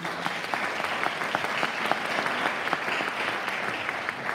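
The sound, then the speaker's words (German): An audience claps at a church service. The applause is continuous and even, with individual claps standing out throughout, and no talk. “kräftigen Applaus für unsere Schwester Christina.”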